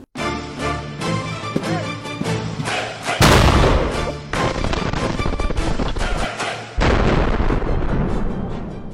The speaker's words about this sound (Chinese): 你快看，有人把特斯拉给炸了！